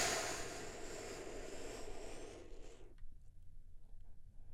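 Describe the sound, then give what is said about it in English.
A big, deep breath drawn in as one long, loud, airy rush lasting nearly three seconds, then cutting off abruptly into near silence with faint low rumbling. “taking one big, deep healing breath with me right now.”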